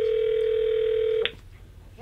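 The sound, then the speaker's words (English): Telephone dial tone held steady and loud for over a second as a call is dialled, then cut off by a short keypad beep, with another brief tone near the end. “Let's make a call. Dial it up.”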